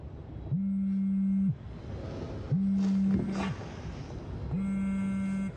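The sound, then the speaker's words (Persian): A phone rings for an incoming call: three evenly spaced tone bursts, each about a second long, at a steady low pitch with short pauses between them. “چی شده؟ لایلا داره زنگ میزنه.”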